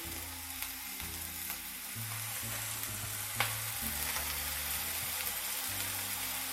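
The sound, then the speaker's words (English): Steady, dense sizzling of food searing in a hot pan, a continuous crackling hiss at an even level with small pops scattered throughout and no voices. “Just kind of let them sear for about a minute, maybe two.”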